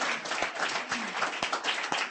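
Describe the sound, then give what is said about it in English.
Audience applause at a reading, brisk and steady clapping from a small crowd, with a few sharper single claps standing out from the patter. “Give her a hand. Just like that.”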